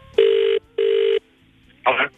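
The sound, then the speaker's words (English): Telephone ringback tone on a call being dialed to Harvey Bay: two even, steady beeps with a short gap between them, followed by a brief voice. “Dialing up Harvey Bay.”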